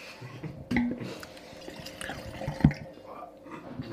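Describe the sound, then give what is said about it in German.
Faint liquid trickling as Chardonnay Pure white wine, second filling, is poured into glasses, with two sharper knocks standing out against a steady low background. “Jetzt haben wir den Chardonnay Pure, die zweite Füllung. Ich würde sagen, damit es hier nicht so trocken abläuft, schenken wir uns den mal ein.”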